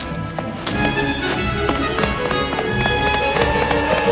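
Galloping footsteps of a dinosaur charging at full speed across a dirt cave floor: loud, rapid, rhythmic thudding strides with steady music underneath.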